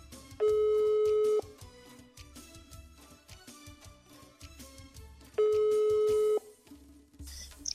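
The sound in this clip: Ringback tone of an outgoing telephone call: two long, steady, low buzzing tones about a second each, separated by a pause of several seconds, over quieter, busy background sound.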